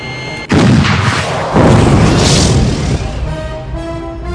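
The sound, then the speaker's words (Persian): Booming fire of a 76 mm naval gun shooting at an incoming missile: two very loud blasts about a second apart, each followed by a sustained roaring rumble that eases off toward the end. “موشک از سمت ساعت نه بزنش توپ 76 آماده برای شلیک”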